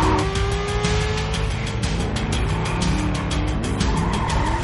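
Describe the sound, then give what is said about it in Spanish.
Car tires skid and squeal as a car weaves between other cars during an action-film chase, over a continuous loud roar of engine and road noise with wavering squeal tones. “Zigzaguea entre los coches. Derrapa y pasa entre dos.”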